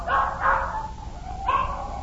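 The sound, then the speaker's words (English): Dogs bark from the back seat of a car, giving three short, sharp yaps with a longer pause before the last. The barks are moderately loud, with no voices. “Where'd all them dogs getting in my car? What's all them dogs doing in my car?”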